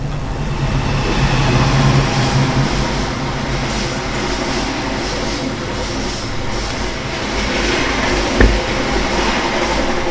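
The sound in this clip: A train passing at a railway station: a loud, steady rumble of wheels and carriages that holds throughout, with one brief sharp knock near the end.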